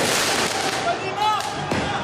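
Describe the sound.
Firework mortar shots crackle and whistle during street unrest in Paris after a football victory. Bursts and a rising whistle are half buried in a dense, loud roar of crowd noise.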